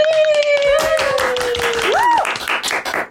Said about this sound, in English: Everybody, please put your hands together